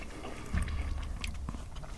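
Biting into and chewing a chewy sun-dried tomato and parmesan snack. Faint, soft, moist chewing and a slight crunch continue steadily with no talk over them.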